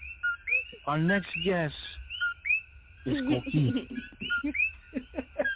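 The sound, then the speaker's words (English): Coqui frogs call in Puerto Rico, a repeated high two-note whistle that rises on its second note, chirping steadily under people talking. “That sound, I will forever miss it. Always. Oh, man. There you go. Always follows us, right? The coqui, right?”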